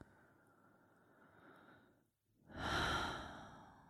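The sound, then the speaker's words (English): Deep breathing during a meditation practice: a soft, drawn-out breath, a brief silent pause, then a louder, fuller breath that swells and slowly fades, with no talking. “So just taking a few more breaths here.”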